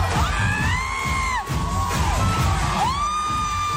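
A group of women friends, mostly moms on vacation in Miami, cheers and whoops at a party. High, gliding whoops and squeals ring out over lively crowd noise, rising and falling in pitch in quick succession.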